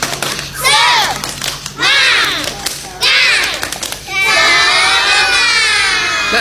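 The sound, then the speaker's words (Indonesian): Children in a class led by a religious teacher perform a rhythmic spirit clapping chant: three short bursts of loud, high shouting and clapping, then a longer sustained stretch of chanting and claps to the end. “Teman-teman. Tepuk semangat.”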